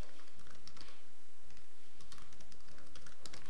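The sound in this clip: Rapid typing on a computer keyboard while a server name is entered: many quick, crisp key clicks in an uneven rhythm, with no voices.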